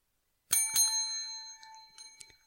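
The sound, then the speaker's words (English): A bell dings twice in quick succession, two bright strikes that ring out together in a sustained metallic tone and slowly fade, with a few faint taps near the end. “Two dings. That sounds very weird to me over the computer.”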